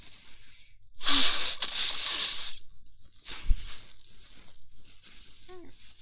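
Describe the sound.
A person forcefully blows their nose: two long, loud rushing blasts, then several shorter and weaker puffs of air.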